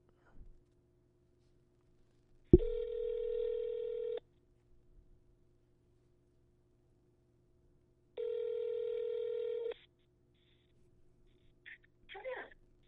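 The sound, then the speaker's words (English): Telephone line tones sound as a call is placed: two long, steady electronic beeps of equal length, separated by a pause of several seconds of near silence. “I'm going to go ahead and make another phone call. And yeah, let me make this phone call for you guys.”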